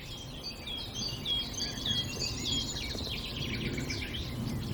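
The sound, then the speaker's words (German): Nightingale song, with other birds singing in the background. Bright, warbling phrases run continuously at a fairly faint level over a steady low noise bed. “Und immer wieder so plätschernder Gesang im Hintergrund. Einmal ist die Nachtigall, die sehr markant ist.”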